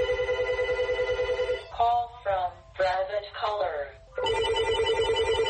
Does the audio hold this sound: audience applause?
no